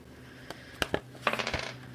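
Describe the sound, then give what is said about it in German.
A six-sided die is rolled during a tabletop role-playing game: a few sharp clicks, then a brief rattling clatter as it tumbles and settles, fairly faint. “1 W6, komm, würfel mal 1 W6.”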